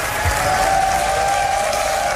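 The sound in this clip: Applause and crowd noise from spectators watching a SpaceX Starship rocket launch reach orbit: a dense, continuous wash of clapping that holds at a steady, fairly loud level throughout.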